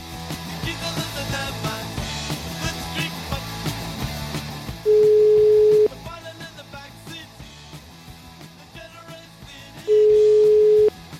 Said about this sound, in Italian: fate scattare il telefono, vai.